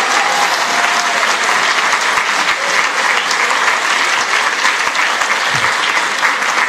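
An audience applauds God during a church service with loud, sustained clapping, a thick and continuous roar of many hands that neither builds nor fades.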